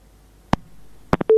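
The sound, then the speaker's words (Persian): Busy tone after a listener's phone call to a radio program is cut off: a few sharp clicks, then a steady, low, even tone starts at the very end. “فکر کنم تماسی اینا قطع شد.”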